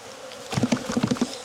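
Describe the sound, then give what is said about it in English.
Agitated honeybees in a queenright hive under inspection buzz in a low droning hum, with a series of short, louder pulses from about half a second onward after a quieter start. “They sound like a queen right hive to you?”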